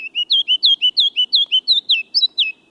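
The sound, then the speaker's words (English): A kinglet sings in spring in the lowlands, a rapid series of many bright, high-pitched notes repeated in an even rhythm. The bird is loud and clear, with no other sounds. “The kinglets' brilliant songs light up many an April morning in the lowlands”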